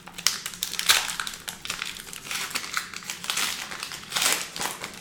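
A wax pack of trading cards torn open by hand. Many crisp, crackling crinkles of wax paper come in uneven bursts, with no talk.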